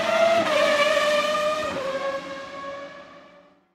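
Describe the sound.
Racing cars driving and skidding, a loud, high-pitched engine whine that holds steady with a brief scraping skid, then fades away toward the end.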